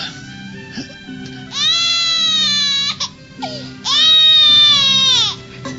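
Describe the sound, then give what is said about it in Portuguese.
A baby crying in a radio drama, two long, loud, high wails with brief whimpers and gasps before and between them. “Por que essa infeliz criança chora tanto? Eu não aguento mais ouvir esse pobre infeliz.”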